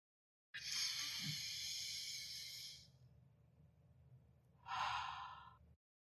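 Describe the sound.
A deep breath drawn in through the nose for about two seconds as a long, airy hiss, then after a quiet pause a shorter, brighter breath pushed out through the mouth.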